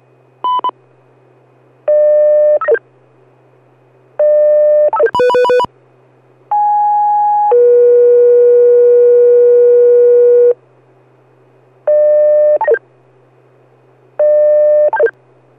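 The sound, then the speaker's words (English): Fire department weekly test page tones: a series of steady electronic tone bursts in several pitches, including a short blip, a quick clattering burst and one long two-part tone lasting about four seconds. The tones sound loud and clean over a constant low hum. “Page, test page only.”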